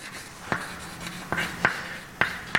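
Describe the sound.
A lecturer writes out a formula on a board, leaving soft scratchy strokes broken by five sharp, distinct taps spaced unevenly across the stretch, with no speech.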